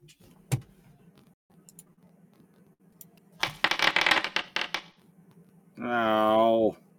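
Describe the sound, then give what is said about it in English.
Dice rolled on a table during a tabletop fantasy role-playing game, a brief burst of quick clattering clicks, followed by a voice vocalizing in a rising and falling tone. “No. I rolled a 6.”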